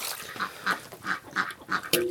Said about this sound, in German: Ja, das ist der Erpel, der hier so einen Rabatz macht.